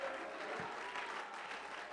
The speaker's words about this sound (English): Clap your hands and shout hallelujah.